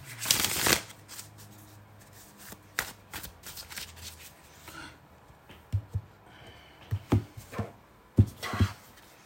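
Tarot cards being shuffled and drawn: a loud burst of riffling at the start, then softer shuffling with scattered sharp snaps and taps of cards, quiet overall.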